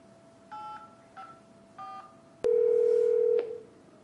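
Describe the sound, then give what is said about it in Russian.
Telephone keypad tones sound while dialing into Microsoft Exchange: three short touch-tone beeps, then one longer steady tone lasting about a second, followed by a brief final blip, over a faint constant hum. “Для этого я звоню на Microsoft Exchange.”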